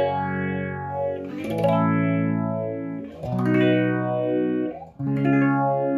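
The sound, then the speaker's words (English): An electric guitar played through an Electro-Harmonix Small Stone phaser pedal rings out a few sustained chords, each swirling with a slow sweeping phase tone, with short dips between them. “Then you got small stone, or the stone phase, as it's called on here, but it's a small stone, electroharmonic small stone phaser.”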